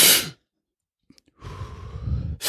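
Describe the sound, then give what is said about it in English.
A forceful breathing demonstration of a deep power-breathing method, breathing fully in and releasing only about 70%: a loud rushing breath, a silent pause with small clicks, then a long, steady, audible breath that ends in another sharp burst. “if people want to know what my breathing looks like when I do the Wim Hof breathing, it's basically like this.”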